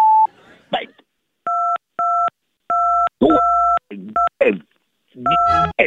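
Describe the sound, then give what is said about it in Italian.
Telephone keypad tones for key 2 beep several times in presses of uneven length. A man's loud, agitated voice breaks in between the beeps. “Premi il tasto 2 per essere collegato.”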